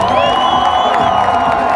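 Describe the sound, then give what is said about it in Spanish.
A crowd cheers and whoops for a finalist violin group at a Pacific-region folk music contest, a steady, loud wash of voices and high calls lasting about two seconds. “el aplauso”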